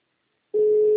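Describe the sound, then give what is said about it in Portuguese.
A telephone busy tone after a dropped call: brief silence, then a single steady, mid-pitched electronic tone that holds to the end. “Acabei de falar com você, só que a ligação caiu.”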